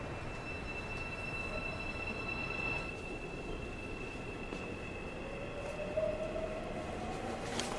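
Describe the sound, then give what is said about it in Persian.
A train runs along the rails with a steady low rumble and a faint, thin high squeal that fades midway. “مرد سوار قطار شد رفت.”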